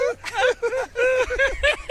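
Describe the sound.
A voice imitates La Chilindrina's crying with a run of short, high, wavering wails, each one bending up and then sliding down in pitch, repeated in quick bursts.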